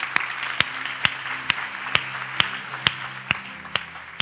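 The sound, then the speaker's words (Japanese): Church audience clapping in praise to God, ten sharp, evenly spaced claps at a steady beat of about two per second, over a faint, low, steady hum. “Let's praise God now. Thank you, Lord. 神様に拍手しましょう”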